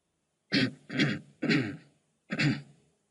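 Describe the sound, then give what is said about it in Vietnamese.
Dry coughing, faint and alone with no talk: three short, rasping coughs in quick succession, then a pause and a fourth. “Tiếng ho khan như có như không vang lên khắp công trung.”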